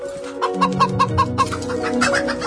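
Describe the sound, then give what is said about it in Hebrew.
A rooster being pestered by children lets out rapid clucks, a quick run of short, sharp pulses over a harsher throaty tone that settles into a continuous squawk toward the end. “ילדים, מה אתם עושים? תעזבו בבקשה את התרנגול הזה, הוא לא למשחק.”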